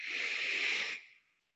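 A single long nasal exhale during a guided breathing exercise: a steady, breathy hiss lasting about a second, then tapering into silence, with no talk.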